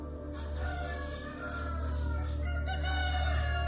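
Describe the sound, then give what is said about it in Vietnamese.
A rooster crows in a village, with one long, loud, ringing call that holds its tone across the whole stretch over a steady low background hum. “Tiếng gà gáy vang lên như thúc giục.”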